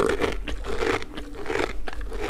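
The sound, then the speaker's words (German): Crunching and chewing from horses eating treats given as a reward after work on a farm, a steady run of many crisp bites and grinding chews with no talk. “Und nach getaner Arbeit bekommen Eddie und Foppe noch eine Belohnung und die lassen sie sich schmecken.”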